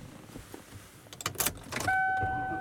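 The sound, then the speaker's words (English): Car sounds while driving home: a few scattered clicks and rattles, then a steady tone that holds at even level to the end. “And I am driving home.”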